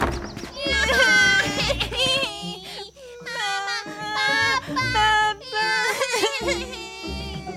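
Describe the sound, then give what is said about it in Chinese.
Voices imitate the crying of three little T-rexes in a children's story: sustained, high, wavering wails that overlap and continue almost without pause, loud throughout with brief dips. “糟糕！住在隔壁的三个小暴龙自己待在家，害怕的哭了起来。”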